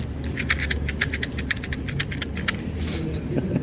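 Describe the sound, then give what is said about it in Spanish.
Rattling of a new matchbox: many quick, crisp shakes in an uneven rhythm, the small sticks clicking against the cardboard over a low, steady rumble. “No está afinada la caja de fósforo. Una nueva caja de fósforo.”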